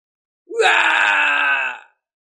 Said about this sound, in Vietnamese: Tiếng kêu thảm thiết truyền đến, bọn họ cả đời đều không trải qua lôi phạt.